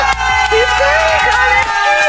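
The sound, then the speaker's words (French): Studio audience cheering and whooping on a French morning radio show after a caller wins a 4K TV, a loud, steady crowd roar mixed with excited voices. “Je vous en prie, il y a du monde dans le studio. J'ai engagé un public ce matin.”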